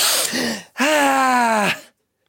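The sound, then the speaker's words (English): A deep breath drawn in, followed by a long, loud, voiced sighing tone of about a second, heard alone with no talk. “Take a deep cleansing breath.”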